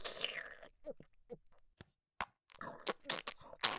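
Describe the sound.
Quiet chewing and crunching while eating a home-cooked meal, with a few short bites and clicks separated by brief silences.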